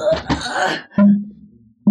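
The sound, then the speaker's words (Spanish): An anguished man's groan as he collapses in a dungeon: a ragged, breathy moan, then low, hoarse droning groans that break off and return. “Ve cómo Lord Mao, dentro del calabozo, exhala un gemido angustiado y cae de bruces.”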